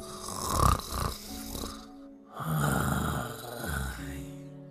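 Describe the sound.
A 15-year-old pug snores in two long, loud breaths: deep, rattling, wheezy rumbles with a brief quiet gap between them.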